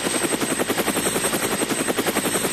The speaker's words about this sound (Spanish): Sí, un helicóptero voló cerca, pero él no lo notó